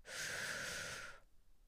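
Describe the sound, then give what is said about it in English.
A deep breath in during a guided relaxation exercise: one smooth, airy inhale lasting just over a second, steady and breathy, then stopping into near silence. “And one more deep breath in.”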